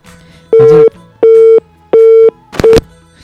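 Four loud beeps of a phone disconnect tone play at one steady pitch, evenly spaced by short gaps. The last beep is cut short.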